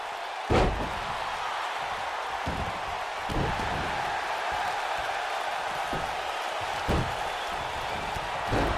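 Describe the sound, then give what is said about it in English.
Heavy thuds of a wrestler being slammed down onto the ring mat at a pro wrestling match, several booming impacts spaced through a constant roar of crowd noise. “Kyle O'Reilly slams Billy down.”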